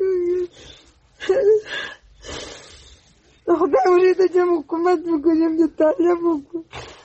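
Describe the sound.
A 47-year-old woman cries for her two sons, killed in one day in fighting between Afghan soldiers and the Taliban. Loud wailing sobs come in bursts, with a quiet pause early on, then a long run of quavering cries.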